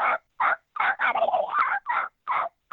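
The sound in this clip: A human voice imitates a turkey gobble without a call, coarse and raspy. Short, hoarse yelps surround a longer rolling, rattling gobble in the middle, with each burst separated by brief silences.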